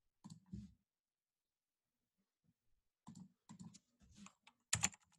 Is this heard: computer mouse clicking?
yes

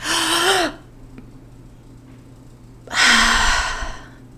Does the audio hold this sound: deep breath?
yes

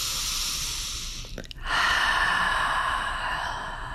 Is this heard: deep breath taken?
yes

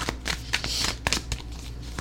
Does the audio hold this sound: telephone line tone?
no

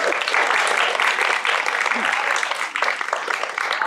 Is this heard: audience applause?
yes

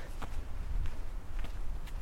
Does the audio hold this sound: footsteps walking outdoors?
yes

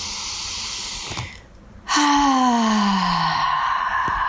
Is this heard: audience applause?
no

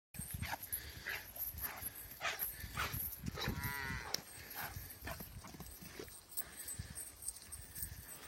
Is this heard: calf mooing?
yes

